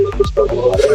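Telephone keypad tones as a number is dialed to call a radio station: a few short electronic beeps over a busy, continuous background.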